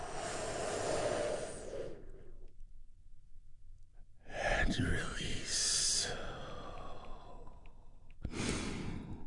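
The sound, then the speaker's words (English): Big, deep breaths taken together during a guided healing meditation, heard as a few long, airy inhales and exhales separated by quiet pauses. “we start by taking a big, deep, healing breath all together”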